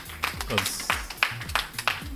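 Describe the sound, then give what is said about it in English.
A few sharp, evenly spaced handclaps ring out as applause, with people talking underneath them. “A round of applause, please.”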